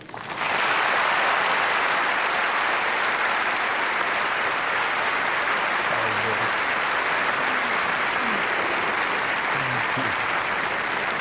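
An audience claps to welcome a guest, and the applause stays sustained, dense and loud with an even level from start to finish.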